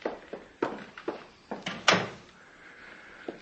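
Door unlocked with a master key and opened: a string of faint clicks, knocks and thuds, building to a louder thump near the middle, then a quiet stretch and one last small tap, with no talk.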